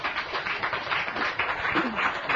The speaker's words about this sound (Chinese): 我哋再热烈嘅掌声向佢致谢。